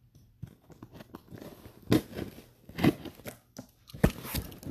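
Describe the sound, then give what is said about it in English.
Cardboard crunches and tears as a box cutter opens a shipping package about 17 by 11 by 8 inches holding a box set, with a few sharp, crisp cutting and ripping bursts between quieter rustles. “Do the box cutting. Chop, chop. Bubble wrap.”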